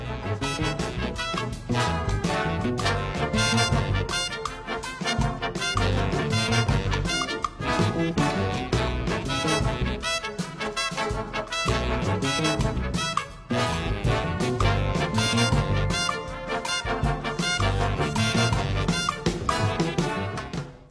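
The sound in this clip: A British big band plays jazz at a festival in Gateshead, a dense full-ensemble sound with a steady rhythmic pulse, loud and unbroken throughout with no talking.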